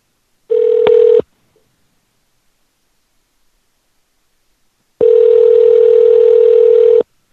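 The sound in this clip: Telephone ringback tones as a call rings through toward voicemail: a short, steady mid-pitched buzz, then a long silent gap, then a longer identical buzz lasting about two seconds.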